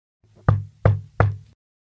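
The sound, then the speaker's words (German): Three firm knocks on a house door, evenly spaced about a third of a second apart, each a sharp, hollow wooden thump with a quick decay, alone against silence. “Als es spät wurde und nur noch vereinzelt ein paar Kinder im Teenageralter durch die Straßen von Haven zogen, klopfte es 3-mal an Michaels Tür.”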